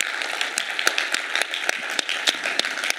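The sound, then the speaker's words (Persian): Applause from an audience clapping for God at the close of a church gathering forms a steady, dense wash of many hands clapping at even loudness throughout. “میتونیم برای خداوند دست بزنیم و با این تمام بکنیم.”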